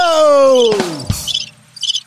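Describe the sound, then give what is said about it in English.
Two short, high-pitched cricket chirps, each a quick buzzy trill, come after a long groaning tone that slides steadily downward in pitch; no one speaks. “I didn't mean that. I didn't mean that. Sorry. I didn't mean the chirping.”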